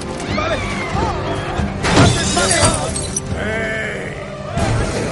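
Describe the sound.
A vehicle crashes into a market stall during a truck chase in an action comedy film, with loud smashing and shattering bursts, a main impact cluster midway and another crash near the end.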